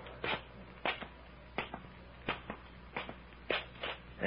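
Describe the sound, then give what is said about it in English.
Footsteps descend a few steps in a winding passageway: many soft, evenly spaced thuds and scuffs, each separate, with no voices over them. “Careful. We go down three or four steps. Right. Watch out for pitfalls.”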